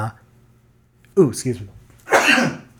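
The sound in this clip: A sneeze bursts out as a sharp, loud, noisy blast near the end, preceded by a couple of short voiced sounds, with people talking around it.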